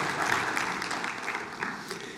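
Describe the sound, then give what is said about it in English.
A church audience claps together, producing a dense, continuous patter of many hands at a moderate, even level throughout. “We can clap for that.”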